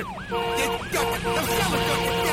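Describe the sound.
A police car siren in pursuit wails in rapid, repeating up-and-down sweeps, loud and continuous over steady sustained tones.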